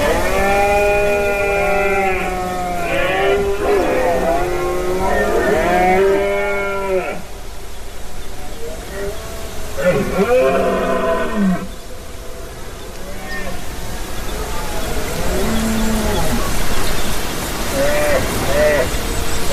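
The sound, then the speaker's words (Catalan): Red deer stags bellow during the rut on a limestone mountain at Beaumont in the Catalan Pyrenees: loud, deep, groaning roars in several drawn-out bouts separated by pauses. “Aquesta que escolteu és la brama dels cèrvols a Beaumont, en aquesta muntanya calcària a la Conca de Dalt i al Pallars Jussà”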